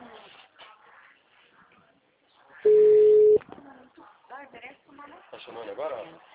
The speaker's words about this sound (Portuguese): Tá chamando agora? Chama.